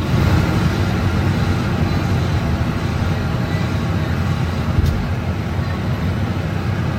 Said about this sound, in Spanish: Este es el ruido de fondo que tenemos nosotros las 8 horas que estamos trabajando en algunos autobuses de nueva adquisición.